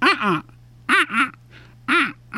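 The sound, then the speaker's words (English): Fish crow call: three nasal two-note calls, each pair short and evenly spaced, arching in pitch, with a faint low hum between them. “Very nasally. And so that's the fish crow.”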